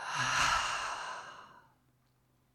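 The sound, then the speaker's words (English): A deep exhale through an open mouth during a guided breathing exercise, one long breathy rush that starts loud and gradually fades to quiet over about two seconds, with no talking. “Open the mouth and exhale. Let's do that a couple times. Big inhale. And exhale.”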